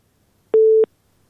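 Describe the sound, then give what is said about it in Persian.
A busy tone follows a listener's call to a radio show being cut off. It is one short, pure, mid-pitched beep lasting about a third of a second, alone against silence. “شنونده ما از هلمند تماسشان قطع شد.”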